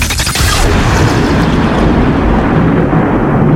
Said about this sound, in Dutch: It's the storm. It's just the storm.